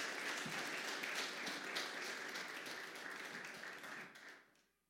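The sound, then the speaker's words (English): Church audience applauding as a speaker comes forward, with dense, steady clapping kept fairly faint throughout before it tapers off and fades out at the end. “would you please give a round of welcome and encouragement to Ed as he comes forward”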